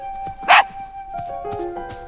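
A dog playing with a ball in a backyard lets out a single short, loud bark, with quieter faint sounds around it.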